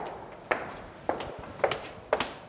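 Footsteps of a man walking across a gallery into a long corridor in a museum, with four distinct, evenly spaced steps, each a crisp knock with a short decay.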